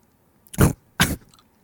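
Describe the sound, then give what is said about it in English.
Someone chews sour gummy sweets (Sour Patch Kids) in two short, crunchy-sounding bursts of mouth noise separated by a brief pause, each fading quickly into quiet. “Sour Patch Kids. I might just eat it. Cheers, Eric. It tastes really good.”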